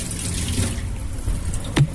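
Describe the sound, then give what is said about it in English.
Tap water runs over a carrot being washed at a kitchen sink, a steady flowing hiss with a short splash near the end. “We'll come over here now to our carrot. Again, we've kept it super simple. Super simple and healthy. So we'll give that a quick wash.”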